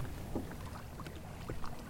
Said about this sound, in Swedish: Och nu ligger vi för styrbordshalsar i 5,2 knop.